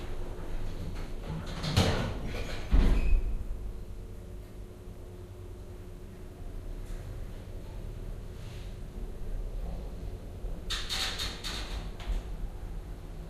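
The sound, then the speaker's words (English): Lift doors sliding open and shut between museum gallery floors: a couple of short rumbling, whooshing bursts early on, then another soft slide near the end, over a steady low hum. “Doors opening. Doors closing. Going down.”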